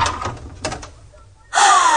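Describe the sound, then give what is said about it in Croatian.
A few dull knocks on a door, followed by a sudden, louder and brighter sound with a high tone. “Čini mi se da je netko pokucao.”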